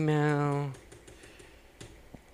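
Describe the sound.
Faint, scattered keystrokes on a computer keyboard as a search is typed in, a few soft clicks following a brief spoken word.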